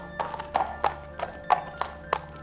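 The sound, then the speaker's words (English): Hooves of a trotting centaur clip-clop on the floor of a firelit cave. They make a steady series of sharp, hollow knocks in an even trotting rhythm. “Chiron trotted over to Hercules, the sleek fur of his hindquarters gleaming in the firelight.”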